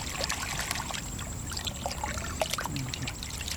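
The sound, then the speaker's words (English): Water sloshing and trickling in a metal pail as muck is rinsed off a clod of marsh grass roots, a steady wet splashing throughout. “In a metal pail, he rinses muck off a clod of marsh grass roots”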